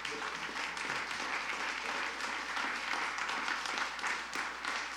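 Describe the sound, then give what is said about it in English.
A church audience applauds to welcome a family. The clapping is dense and steady and stays at an even, full level from start to finish. “Could we give them a hand of welcome today,”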